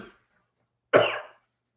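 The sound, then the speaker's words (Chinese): A single abrupt cough from someone who has just choked while talking, one short rough burst breaking a silence. “他呛到了。我来喝点水，再跟大家说。”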